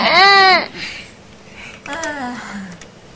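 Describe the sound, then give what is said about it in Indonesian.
A young child crying in whiny wails: a loud, high-pitched cry at the start, then after a pause a second wail that slides downward in pitch. “Nangis. Kok nangis tuh namanya anak”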